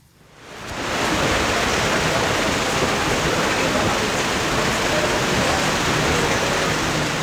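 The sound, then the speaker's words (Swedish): Rain pattering onto a white umbrella at a women's golf tournament in the Netherlands, fading in over the first second into a dense, even hiss that stays constant with no separate drops standing out. “framförallt kanske har det varit rätt blött kan man säga. Så här har det låtit under det vita Radiosporten-paraplyet idag.”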